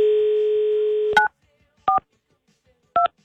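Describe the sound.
A telephone dial tone plays as a number is keyed in to call someone's ex-partner. The steady hum is followed by three separate keypad beeps spaced apart, with silence between them.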